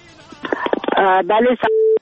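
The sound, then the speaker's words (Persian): A listener's call is put through on a radio phone-in. A warbling tonal burst over the phone line ends in a steady electronic beep that cuts off abruptly. “یک تماس البته وصل می سازیم که یک شماره را فقط انتخاب کنن.”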